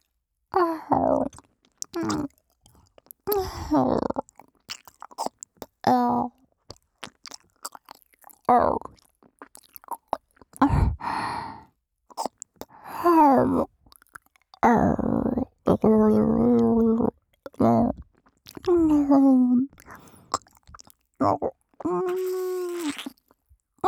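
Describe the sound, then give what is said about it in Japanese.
ASMR ear-eating mouth sounds: many wet smacks, nibbles and slurps in bursts, mixed with soft voiced hums, sighs and moans between them. “お耳も食べてしまいましょう。”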